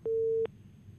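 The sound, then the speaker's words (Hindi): A phone line tone follows a dropped call: one steady, clean electronic beep at a single mid pitch lasts under half a second, then quiet line hiss remains. “Hello hello, शायद उनका phone ही cut गया।”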